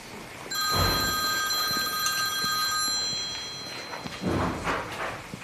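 A telephone bell rings in one long, bright, steady trill, then falls silent, followed by a few soft thumps.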